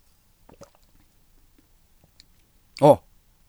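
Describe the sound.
Sipping and swallowing of a drink, with a few faint wet clicks followed by one loud, brief gulp near the end.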